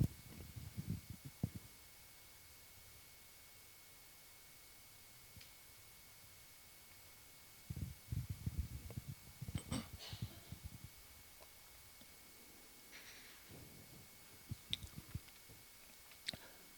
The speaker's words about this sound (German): Ich muss mal was trinken.